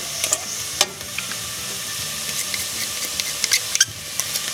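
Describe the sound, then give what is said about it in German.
Garlic pressed with a garlic press into a hot pan sizzles steadily, with a few sharp crackles and pops rising above the even hiss. “Moment, ich muss mal hier ein bisschen heißer machen. Meine Knoblauchpresse. Rutzel, rutzel.”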